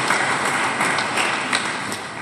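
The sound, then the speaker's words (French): A parish audience claps in a steady, hissing spread of applause. Slight surges rise and fall in loudness, with no voices standing out. “Ensemble, nous allons acclamer les femmes, les garçons et les enfants. Acclamez bien fort et avec joie pour leur dire merci.”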